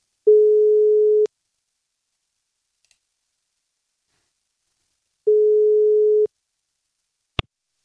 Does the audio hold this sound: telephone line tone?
yes